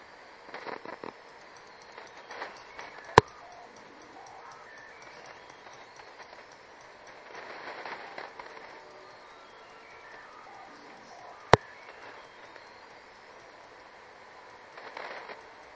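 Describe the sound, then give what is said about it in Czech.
A radio receiver being tuned toward a telegraph station gives faint, steady hiss and soft crackle, broken by two sharp, loud pops several seconds apart. “Jsou tam ještě takovýhle lupance.”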